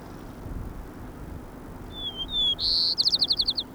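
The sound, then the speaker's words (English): White-crowned sparrow song: a few thin, high whistled notes lead into a longer bright note, then a rapid buzzy trill of many short repeated notes. It is clear and fairly loud over a low, steady background hiss. “White Crown Sparrow A. 1.”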